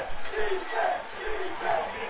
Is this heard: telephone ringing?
no